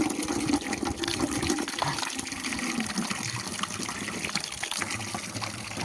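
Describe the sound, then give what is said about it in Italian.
Water runs from a drinking fountain in a steady, loud, splashing gush that stays constant throughout, with no talking. “come al solito la fontanella.”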